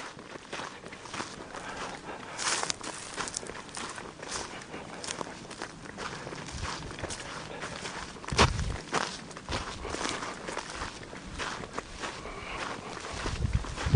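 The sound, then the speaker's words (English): Footsteps walking along a mown strip beside a tree line, a steady series of soft, moderately faint steps continuing throughout. There is no talk. “We'll walk down through here. I've kind of come and mow these away from the tree line on both sides.”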